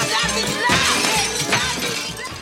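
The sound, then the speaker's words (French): Dishes smash as a cart crashes through the crockery: loud, continuous clattering and shattering of breaking china throughout, with several heavier crashes standing out. “Le chariot est en train de casser totalement la vaisselle un petit peu partout là.”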